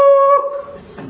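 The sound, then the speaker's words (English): A human voice imitating a wolf howling, a single clear, sustained 'woo' tone held for under a second before it trails off. “When the blue moon comes out, the wolf,”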